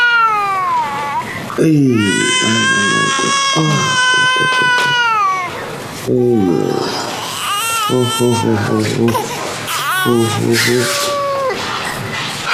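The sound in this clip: An infant cries in several drawn-out, high wailing bursts whose pitch wavers up and down, with short breaks between them and strong sobbing catches between wails.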